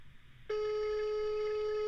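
Ringback tone on an outgoing telephone call: a steady single-pitched tone cuts in after a moment of low background noise and holds unbroken to the end.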